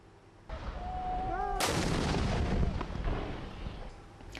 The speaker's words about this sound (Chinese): 在也门西南部塔伊兹省，也门政府军持续向胡塞武装阵地发射炮弹，并使用重机枪等武器向胡塞武装发起打击。